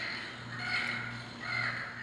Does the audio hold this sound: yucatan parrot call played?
yes